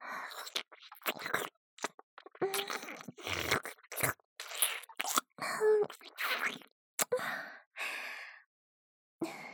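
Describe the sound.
ASMR mouth sounds of nibbling on a listener's ear: many soft, close, wet nibbles, smacks and breathy sighs, quiet and irregular, separated by short pauses.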